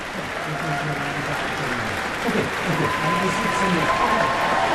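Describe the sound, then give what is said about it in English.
An audience applauds the National Youth Orchestra of the United States of America after a concert, with steady, dense clapping under a speaking voice that grows a little louder toward the end. “for more applause for the National Youth Orchestra of the United States of America. Another bow for this group of young people.”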